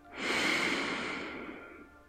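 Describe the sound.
Slow, deep inhalation through the nose during a guided relaxation meditation, one long breath that swells in quickly, holds steady and gently fades over about two seconds, with no talking.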